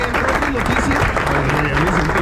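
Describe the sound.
Applause from a crowd, a continuous rattle of clapping that stays steady throughout while excited voices talk and call out over it.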